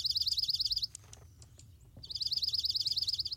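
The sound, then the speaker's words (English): A dark-eyed junco sings two bursts of a rapid, high, evenly pulsed trill. A quieter gap separates the two bursts. “I can hear some crows in the background there, too, with the junco.”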